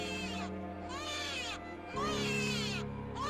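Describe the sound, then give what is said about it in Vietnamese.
Two newborn babies wailing: repeated high, wavering cries that rise and fall in pitch, coming one after another with barely a break and growing louder toward the end. “Hai cái quái thai cứ thế mà gào khóc, chúng nó cào rách màng nhĩ của người ta ra mất.”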